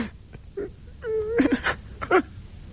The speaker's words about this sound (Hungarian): De hiszen még tud sírni. Talán sírnia sem szabad. Vessétek hát sírva a verembe, mit akartok még?